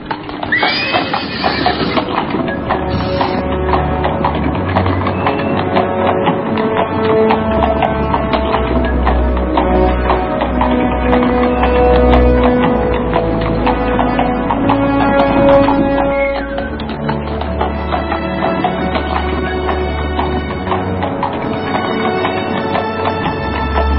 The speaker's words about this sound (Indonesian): Gerobak perlahan-lahan bergerak meninggalkan halaman pondok ketika matahari sudah semakin tinggi.